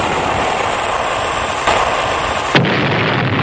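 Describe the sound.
Cannon fire aimed at an old sailing ship: a loud, sustained roar of blast noise, with two sharper bursts cracking through near the end.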